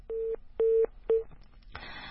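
Telephone keypad dialing a caller whose line keeps disconnecting: three short, evenly spaced touch-tone beeps, then a burst of hissy line noise.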